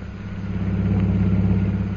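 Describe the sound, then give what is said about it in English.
A car drives through the streets of Shanghai as a dramatized sound effect, its engine giving a steady, low rumbling drone that swells slightly and then holds even, with no voices. “We now find Jungle Jim and Mr. Cooper driving through the streets of Shanghai on their way to the Jockey Club.”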